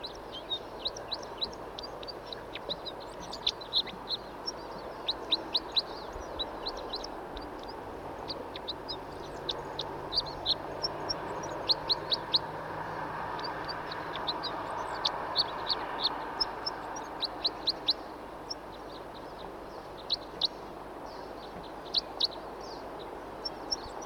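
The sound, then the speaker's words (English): A wild bird singing and calling, with many short high chirps and trills repeated throughout, fairly faint over a steady background hiss. “Here's another bird who's also singing and calling. Wild bird song.”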